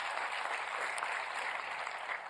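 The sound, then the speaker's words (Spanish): Audience applause for dinner hosts, a faint but dense and even patter of many hands clapping together, holding steady for the whole short stretch. “Yo estaba hablando esta tarde con nuestros hosts, para quien pido un fuerte aplauso, que nos acompañan a comer, Benjamín e Ilva.”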